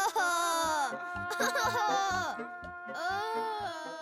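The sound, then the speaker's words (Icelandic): Children crying together: loud, high wailing sobs rise and fall in pitch in several drawn-out cries, broken by short breaths and catches. “Himnabörnin grétu öll.”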